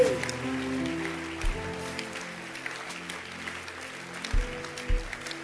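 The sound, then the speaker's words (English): Audience clapping during a church service, a steady patter of hands over sustained low musical tones, fairly faint, with a few heavier thumps. “Clap your hands.”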